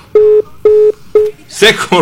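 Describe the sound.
Telephone disconnect tone on a radio phone-in line as the call cuts off: three steady, even beeps at a constant mid pitch, evenly spaced, followed by a voice starting to talk.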